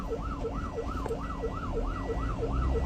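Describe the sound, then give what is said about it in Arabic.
An ambulance siren wails through street traffic, its tone sweeping rapidly up and down in a steady, repeating cycle over a low rumble of road noise, fairly faint and alone without voices. “إسعاف إسعاف إسعاف، افتحوا الطريق”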